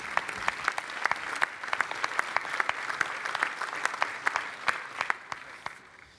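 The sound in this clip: Audience applause at the 2022 St. Patrick's Day breakfast in Boston welcoming a Catholic priest to the podium: many crisp, overlapping claps in a steady wash that gradually tapers off toward the end.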